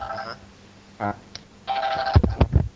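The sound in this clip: An electronic telephone ringtone sounds in a few short bursts of bright repeating tones, with a voice cutting in near the end.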